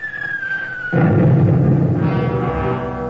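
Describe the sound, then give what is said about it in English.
A bomb lands on a destroyer's deck: a thin descending whistle gives way to a sudden heavy blast, followed by a lingering rumbling roar that slowly fades. “Hear that? That was a Jap bomb landing on the deck of the Aaron Ward.”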